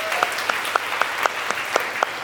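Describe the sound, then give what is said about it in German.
Brief applause for a team member at a live event: a steady run of evenly spaced, crisp claps at a quick, regular pace, moderately loud over a soft background hush, with no talking. “Das ganz kurzen Applaus für Tobi einmal ganz kurz.”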